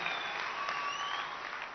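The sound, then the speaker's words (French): An audience applauding during a church service: steady, continuous clapping that stays at an even level for the whole clip. “Que se escuche hasta París este aplauso.”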